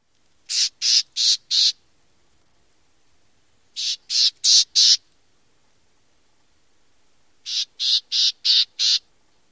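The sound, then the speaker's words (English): Black-tailed gnatcatcher call notes come in three separate bursts of four to five harsh, buzzy, high-pitched notes, each burst evenly spaced and loud against silence. “Our next gnatcatcher will be the black-tailed gnatcatcher. Here is their call note.”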